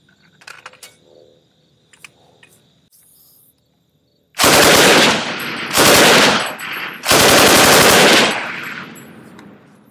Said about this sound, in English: What we want to see is full auto shooting.